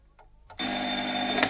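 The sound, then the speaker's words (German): A telephone rings early in the morning, quiet at first, then a loud, continuous electric bell ring that buzzes steadily to the end. “Kurz nach 7 in der Früh klingelte das Telefon.”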